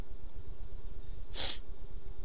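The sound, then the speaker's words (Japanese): A single short nasal sniffle, a quick breathy hiss over a low, steady background hum, with no voices. “七子はろうそくを見つめながら鼻をすすってぽつりとつぶやきました。”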